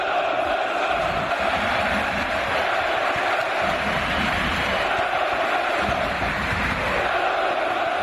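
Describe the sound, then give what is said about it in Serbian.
A crowd in an indoor arena roars an ovation as a visiting coach, a former player of the home club, walks onto the court. The cheering and chanting stay loud and unbroken throughout. “Trener Albe, nekadašnji igrač Zvezde Saša Obradović, doživeo je ovacije prilikom ulaska na teren hale Pionir. Navijači su ga gromoglasno pozdravili.”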